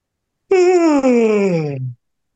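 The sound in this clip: A person imitates a yawn with one drawn-out voiced groan lasting about a second and a half. Its pitch slides steadily downward before it stops abruptly, with silence on either side.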